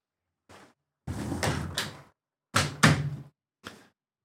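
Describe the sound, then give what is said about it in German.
A window being closed: a series of rattles and thuds, with a long scraping stretch followed by two loud knocks and a few softer clicks before and after, with no voices. “Ich muss das Fenster zumachen”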